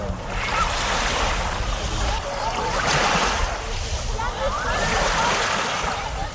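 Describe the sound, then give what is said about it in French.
Beach ambience with waves rolling in, a constant hiss of surf swelling into louder surges and easing back, with voices mixed in. “Voilà, ambiance de plage que vous aurez peut-être la chance de connaître cet été, sauf que les bords de mer ou de lac ne sont pas non plus sans risque.”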